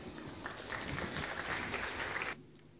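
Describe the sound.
Applause welcoming a guest: dense, steady clapping that swells slightly midway, then cuts off abruptly near the end, leaving a faint hiss.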